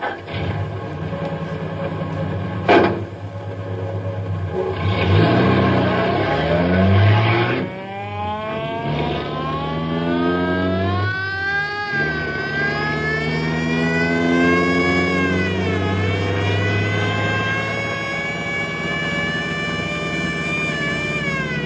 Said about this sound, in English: that guy's either drunk or crazy. I'll say, so that's no way to drive down a mountain road.